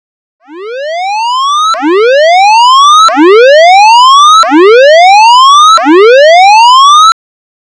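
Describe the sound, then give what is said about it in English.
The standard emergency warning signal siren sounds in five loud, repeated upward-sweeping wails, each rising steadily in pitch before snapping back to start the next. “The next sound you hear will be the standard emergency warning signal.”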